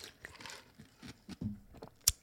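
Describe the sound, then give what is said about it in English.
Ice crunching in cold brew coffee: a few soft, crisp crunches and chews, faint overall, with one sharper, louder crunch near the end. “A little ice crunch in there too.”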